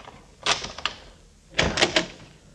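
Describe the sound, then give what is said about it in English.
A key works the lock of a locked closet door in two short bursts of sharp metallic clicks and rattles, with a brief pause between them and quiet all around. “Closet door still locked, all right? Just a minute till I get the right key here.”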